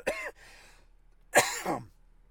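Harsh, throaty coughing breaks out after something goes down the wrong pipe: a few rough coughs in short bursts, the later burst louder and more strained.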